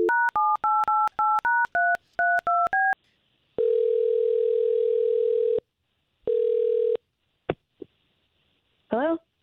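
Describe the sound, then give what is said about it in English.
Touch-tone keypad dialing to place a phone call: a rapid run of paired-pitch beeps, then two long steady ringing tones separated by a pause, a few faint clicks, and a brief voice at the end. “I'm going to try to call her right now.”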